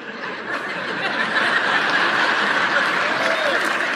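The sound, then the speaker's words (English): A sermon audience breaks into scattered clapping mixed with chuckles and laughter after a Proverbs verse about a quarrelsome wife. The sound starts softer and grows fuller. “I'm not sure who's clapping on that. If there's a guy clapping, you're in trouble.”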